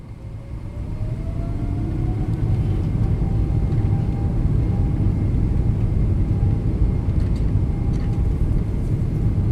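An airplane's loud, steady engine roar as it rolls down the runway for takeoff, building over the first couple of seconds, with a thin whine that climbs slightly in pitch and then holds.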